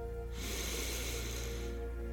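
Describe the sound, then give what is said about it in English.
A slow, deep inhale during a guided relaxation exercise: a faint, airy breath that swells and lasts about a second and a half over a steady low hum. “Inhale deeply.”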